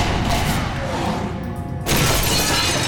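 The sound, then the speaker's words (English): Heavy rifle fire of explosive projectiles shattering thick walls: a dense, loud roaring crash that continues throughout and surges into a sudden, even louder burst near the end. “shattering the thick walls into burned, smoking shards.”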